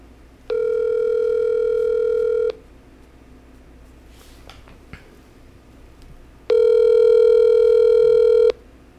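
Telephone ringback tone of an outgoing call ringing out: two long, steady electronic rings separated by a few seconds of quiet, with no talk.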